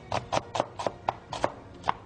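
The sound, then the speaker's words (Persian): Knife slicing an onion into thin strips on a cutting board, a steady run of about eight crisp chops at an even rhythm, with no talking. “پیاز رو به صورت در واقع خلالی برش میزنیم.”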